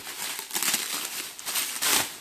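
Black plastic rubbish-bag film crinkles and rustles in irregular, brittle bursts, fairly soft overall and swelling louder toward the end.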